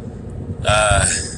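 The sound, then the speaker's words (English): Low road rumble from inside a car being driven to jiu-jitsu, steady throughout, with a brief hissing swell and a faint tonal whine in the middle. “So I'm driving to jiu-jitsu.”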